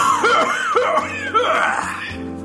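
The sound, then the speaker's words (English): Coughing from a girl with emphysema: a few harsh, wheezy coughs with rasping, pitch-swooping tails, sounding loud over steady background music. “The girl with emphysema goes coughing.”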